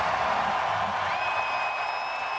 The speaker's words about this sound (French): Quel accueil pour Carey avec son chapeau de cowboy hier au Centre Bell. Ben non, il jouait pas, on le comprend, on le sait. Mais ça a donné le ton, on va dire que c'est évidemment lui qui a été le plus ovationné hier.